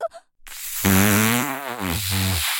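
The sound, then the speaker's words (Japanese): A long, drawn-out fart, a low buzzy tone with a quavering, wobbling pitch that runs for nearly two seconds, preceded by a short faint puff. “おなら止まらない。”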